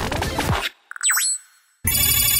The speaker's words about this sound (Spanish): Llamada entrante.